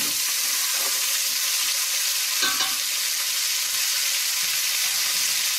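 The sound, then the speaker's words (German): Sausage and meat fry in a pan, giving a steady, bright sizzle throughout, broken by a few scraping strokes as the pan is stirred. “die Wurst nochmal ein bisschen Farbe kriegen lassen.”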